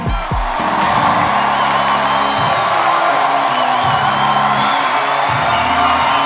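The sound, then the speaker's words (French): A comedy festival audience at Montreux Comedy cheers and whoops to welcome a comedian onstage, a loud, sustained roar of shouts, whistles and clapping that swells quickly and holds steady throughout. “Préparez-vous maintenant à accueillir notre prochain artiste et faites du bruit, où que vous soyez, pour Mike Ward.”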